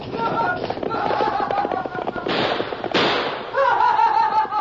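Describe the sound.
Gunshots fired at a campsite beside a campfire: two sharp, loud cracks stand out over a rough, crackling background.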